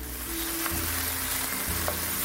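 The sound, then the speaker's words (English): Tomatoes frying and being stirred in a pan as they break down into a reddish base for an Indian-style dish. A steady, even sizzling hiss runs throughout, with a low tonal hum beneath it. “Oh yeah, I've been stirring this whole time because you do want to move them around a little bit. And the tomatoes are definitely broken down.”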